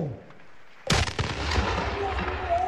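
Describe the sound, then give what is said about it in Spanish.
A ceremonial artillery salute fired by a battery in honor of the president of Colombia: one sharp, booming cannon report about a second in, after a quiet lead-in, then a long rolling rumble that lingers to the end. “¡Batería, fuego!”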